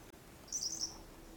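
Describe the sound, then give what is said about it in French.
A faint, brief burst of high-pitched birdsong at the edge of a forest beside a plateau, a single short twittering phrase over a quiet, low background hum. “où quelques éclats de chants d'oiseaux à peine perceptibles rebondissent ici.”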